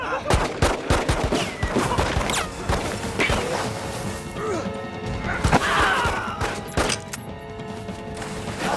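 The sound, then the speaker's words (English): Gunfire as a man opens fire among snowy rocks: many sharp, overlapping reports crack in irregular, dense bursts, loud and sustained across the whole stretch with little pause. “As Arian struggles, Ernie opens fire.”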